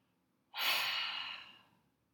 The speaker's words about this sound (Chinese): 再做两个深呼吸，鼻子吸到最饱，愤怒扩张到你的身体边界。大口吐气，